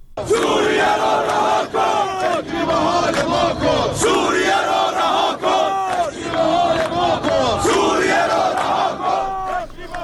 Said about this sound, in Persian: صدای گروهی از کارگران گروه ملی فولاد اهواز رو شنیدید.